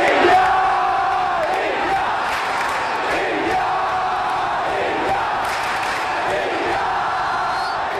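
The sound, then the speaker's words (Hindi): A large crowd chants India slogans at the Commonwealth Games, a dense, loud roar of voices rising and falling in a steady, repeating rhythm throughout. “अगले 10 दिन 7 समुंदर पार Scotland के Glasgow की फिजाओं में भी India India के ये नारे गूंजते सुनाई देंगे, क्योंकि आगाज हो चुका है 22वें कॉमनवेल्थ गेम्स का”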